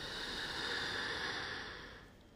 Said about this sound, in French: Je fais beaucoup de bruit avec ma respiration afin de vous décomplexer complètement sur vos impulsions, sur votre mouvement et rythme respiratoire. La dernière, allez, inspirez.